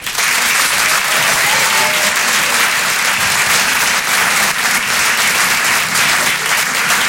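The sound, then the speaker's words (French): A comedy club audience applauds a comedian with dense, loud, sustained clapping that continues without a break for the whole seven seconds. “Je vous demande de l'encourager, de faire un maximum de bruit, s'il vous plaît, pour Paco.”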